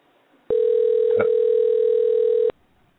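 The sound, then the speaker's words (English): A steady telephone tone sounds as a handset is dialed. The even, buzzing tone holds for about two seconds between silences, heard alone. “And we're dialing. I see that.”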